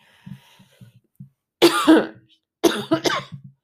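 Coughing and throat clearing from a person feeling it in the throat: two loud, harsh bursts, the second a rough run of several quick hacks, after a few faint low sounds.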